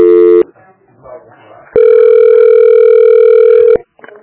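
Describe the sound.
A telephone call transfer tone: a short electronic tone burst, faint handling noises, then a loud, steady two-second tone that cuts off abruptly.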